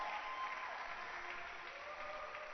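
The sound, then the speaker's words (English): An audience applauds at a church worship service: dense, steady clapping that holds at an even loudness throughout and fades slightly toward the end. “Let's clap. Let's give another clap.”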